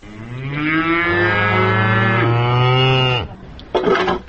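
A cow moos in a livestock barn at the edge of a village in Ak-Suu during winter preparations: one long, loud, sustained low moo of about three seconds, then a short rough burst of noise.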